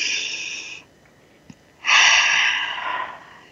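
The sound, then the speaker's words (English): Deep breathing during a guided breathing exercise: two soft, airy breath sounds, a shorter one, then a brief pause and a longer, louder rush of breath that slowly fades out. “So let's breathe that in.”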